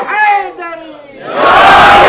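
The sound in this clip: A crowd at a religious gathering shouts a religious slogan, many voices chanting together at first, dipping briefly, then swelling into a loud, sustained roar.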